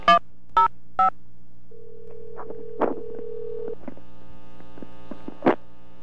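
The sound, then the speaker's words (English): Touch-tone dialing of a phone extension on an office's automated phone line: three short, evenly spaced, loud beeps, followed by a steady low hum, a longer held tone and a few faint clicks. “To use our company directory, dial 4. For immediate assistance, dial 0, and dial your party's extension at any time in this recording.”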